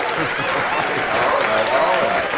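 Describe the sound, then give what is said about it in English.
Audience applause welcoming a singer onto the stage, a steady dense wash of clapping with voices calling out over it throughout. “So, let's bring him up with a big round of applause.”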